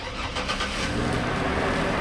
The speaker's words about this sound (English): Watching the traffic outside his favorite coffee shop in West Seattle,